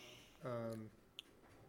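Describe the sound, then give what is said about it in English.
A cat gives a single drawn-out, tonal meow that could pass for a squeaky door hinge, faint against low background hiss, followed by a tiny click. “Oh, that's the cat. I thought it was a squeaky door.”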